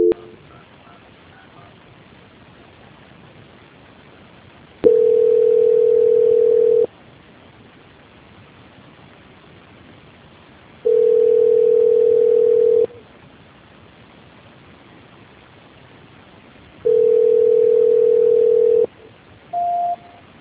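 Telephone tone during a call transfer: three steady mid-pitched beeps of about two seconds each, evenly spaced by long quiet gaps, then a short higher beep at the end.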